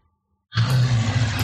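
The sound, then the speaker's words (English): A deep, loud roar of a massive creature in a fantasy tabletop role-play scene, starting abruptly and holding steady for about a second with a heavy low rumble. “As you all proceed through the area, you hear a great roar”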